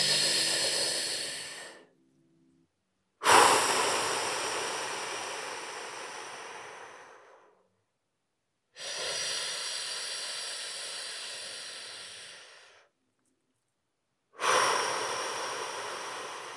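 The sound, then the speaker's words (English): Long, slow, deep breaths through the airway: four drawn-out rushing inhales and exhales, each swelling then fading, separated by short silences, with no talking. “we can achieve that by these long, slow inhales and long, slow exhales. So if you were listening, all you would hear would be me like...”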